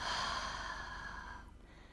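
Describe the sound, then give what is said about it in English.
One deep, airy breath taken during a guided meditation exercise. The breath is a steady rush of air that fades out after about a second and a half, with no talking. “take a big inhale through the nose into that awareness and open the mouth. Exhale, let it go.”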